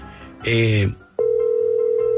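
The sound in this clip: Telephone tones while a call is being placed: a short, loud harmonic burst, then a steady, unbroken mid-pitched tone that holds without pause to the end.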